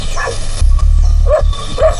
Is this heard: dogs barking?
yes

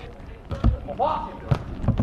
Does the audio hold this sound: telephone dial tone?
no

